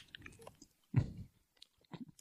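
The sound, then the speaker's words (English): Someone chews a condom in their mouth: a few short, wet, crunching bursts, the loudest near the middle, separated by brief silences. No one speaks. “That's definitely a condom, an unsheathed condom in my mouth. I'm definitely chewing a condom. It's leaving chunks in places.”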